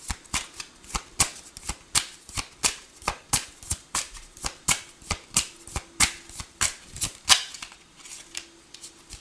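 Tarot cards shuffled for a clarification card: a long run of many quick, crisp riffling bursts in a steady, fairly even rhythm, with no talk over them.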